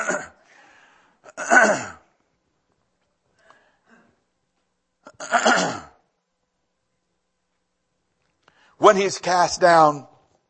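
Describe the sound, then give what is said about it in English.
A man repeatedly clears his throat, forcing out several rough, rasping bursts separated by silence; the last is the longest and most voiced. “I cannot get my throat cleared. Come on, hit me in the chest, will you?”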